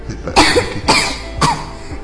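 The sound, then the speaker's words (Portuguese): A young girl coughs three times, the sharp bursts evenly spaced and each loud and rough, with no talking between them. “eu tô com tosse”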